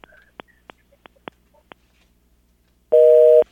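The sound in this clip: Telephone busy tone after a dropped call: several sharp, scattered clicks on the line, then one loud, steady two-note electronic tone lasting about half a second, with no voices.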